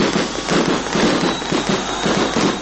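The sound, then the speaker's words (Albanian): Fireworks exploding at a welcome-home celebration in Kosovo, a loud, dense and continuous barrage of crackling and popping bursts that overlap without pause. “Për nder të kthimit të tij në Kosovë janë ndezur fishek zjarre”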